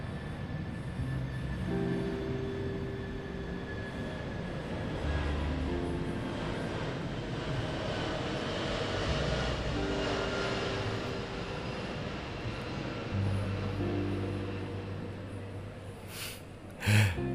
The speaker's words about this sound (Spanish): Antes de comenzar me gustaría dejarles saber que tenemos el avión.